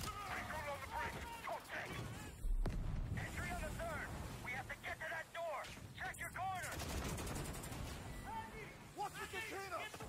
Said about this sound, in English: How many times can we just see someone shoot? Yep, yep. Call of Duty.